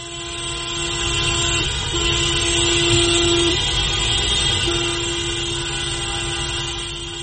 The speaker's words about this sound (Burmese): ကားဟွန်းတန်တွေကိုအဆက်မပြတ်တီးကြတာ။